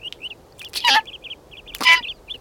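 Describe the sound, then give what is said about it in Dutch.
Small forest birds chirping in many quick, high, bright notes in short runs, broken twice by a louder warbling call. “Roep een paar vogeltjes. Dag vogeltjes, zegt Sneeuwwitje.”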